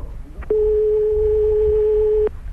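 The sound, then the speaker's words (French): Telephone ringback tone on a call that goes unanswered: one loud, steady, mid-pitched tone lasting under two seconds, with faint low background noise before and after. “Pourquoi vous ne décrochez pas? Écoutez, vous entendez sonner, là!”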